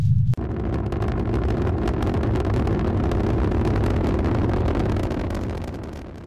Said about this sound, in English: Proton engines ready. 10 degrees, 5 degrees, on course. We are go for throttle up. Go for throttle up, and goodbye, Latumas.